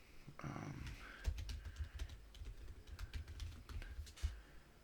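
Quiet typing on a computer keyboard: many light, irregular keystroke clicks tapping in uneven bursts over a soft background hiss.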